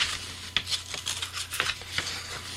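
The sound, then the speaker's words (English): Rasping scrapes of folded sandpaper sanding the enamel coating off a wire toroid, many quick back-and-forth strokes in an uneven rhythm, with a faint steady hum underneath. “You can kind of sand that off. So keep working with the sandpaper, keep going back and forth, and just kind of give the toroid a twist, and in a little bit you'll have it all cleaned up.”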